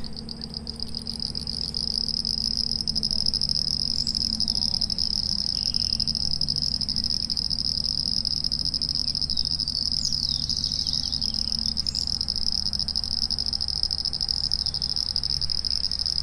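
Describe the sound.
A natural soundscape at a home site in the countryside: a loud, steady, high cricket trill runs throughout, over a low continuous chorus of frogs and other insects, with no talking.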